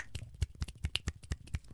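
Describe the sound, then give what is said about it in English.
Finger snapping in a quick, even run, many sharp dry snaps following one another in under two seconds, each a short crisp click with no voices over it. “Yes, faster snapping for you.”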